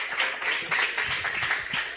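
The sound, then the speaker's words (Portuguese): A church audience claps joyfully for a visiting preacher in dense, sustained applause that stays fairly even throughout. “Receba o homem de Deus com as palmas bem alegres para Jesus.”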